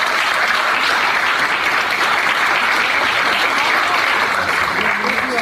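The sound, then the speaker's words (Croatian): Sustained audience applause greets folk dance groups from Slovakia, Belarus, Serbia, Croatia and Montenegro at an evening folklore performance: a dense, even wash of many clapping hands that stays loud and steady throughout, without a break. “Molim jedan veliki aplauz za sve njih.”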